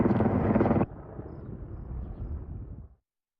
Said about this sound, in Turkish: Alevlere 2 söndürme uçağı, 9 helikopter ve 700'den fazla personelle müdahale ediliyor.